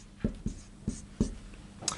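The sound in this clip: Handwriting: a few short, scratchy pen strokes in an irregular rhythm, faint and alone.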